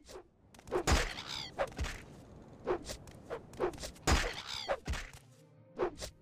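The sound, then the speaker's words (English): Repeated blows of an attack on a Cliff Racer in a video game: many dull thunks and whacks come in an uneven rhythm, each a short, loud impact with a bright crackle on top, and no voices. “We're just attacking the Cliff Racer. Good night, Cliff Racer.”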